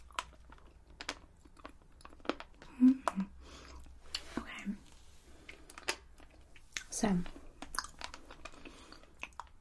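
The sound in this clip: Someone chews a hard, slightly chewy cappuccino-flavoured toffee candy from Thailand, with many scattered sharp clicks and soft crunches at an irregular pace, and quiet whispering in places.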